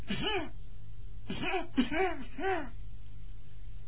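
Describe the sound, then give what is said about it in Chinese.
A voice imitates deliberate coughing, a bride's forced coughs: about four short, voiced, throat-clearing bursts, mostly bunched together after a pause. “故意的咳嗽那么几声”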